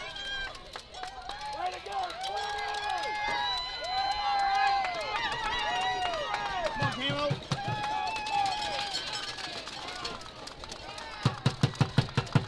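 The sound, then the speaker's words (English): Softball fans cheer and shout after a fielding error in the top of the seventh inning, with excited voices rising and falling over a busy crowd, then a run of quick sharp knocks near the end. “You can hear the fans excited on that error right there, running both people into scoring position with nobody out here in the top of the seventh inning.”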